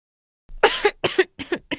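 A person with an uncomfortable throat coughs in a harsh, rough fit of about four bursts after a brief silence, the first two running together and the rest coming in quick separate spasms.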